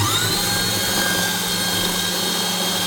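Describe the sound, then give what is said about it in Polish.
A food processor grates ingredients for a sandwich spread into a bowl, with a loud, steady motor whir that holds unbroken from start to end, without voices. “Wrzucam wszystkie naraz, włączam tarcie i”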